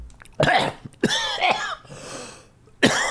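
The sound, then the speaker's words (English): Coughing after choking on saliva: a few harsh, abrupt coughs spaced across the moment, loud against a quiet background, with no talk in between. “You ever taken too much saliva by accident? You're not supposed to choke on the podcast.”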